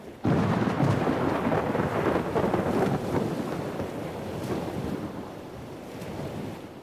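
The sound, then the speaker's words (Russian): Waves splash against a small boat with a white sail while wind hisses, forming a steady, loud rushing wash that swells and eases slightly, with no voices. “Скрипнула лодка, плеснула о борт волна, чуть зашипел ветер в белом парусе.”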